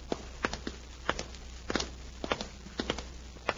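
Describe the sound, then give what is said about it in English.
Footsteps walk down a hotel hallway in a quiet, steady run of many crisp steps over a low background hum. “They step out of the elevator and walk down the hall.”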